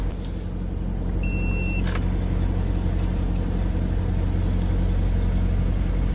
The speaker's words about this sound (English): So that pump is slowly ramping up.